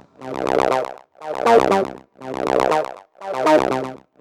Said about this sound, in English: I start by dragging a triangle volume automation region on top of my mono synthesizer. All the Gridlog regions contain region-based volume automation, so it sounds like this now.